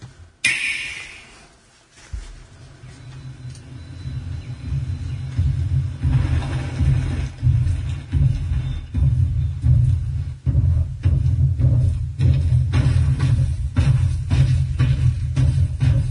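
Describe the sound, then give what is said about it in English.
The Super Mario Odyssey E3 trailer plays with a heavy, deep rumbling soundtrack that builds and stays loud, punctuated by many rhythmic percussive hits. “All right, dude, we're playing right now the Mario Odyssey trailer from E3.”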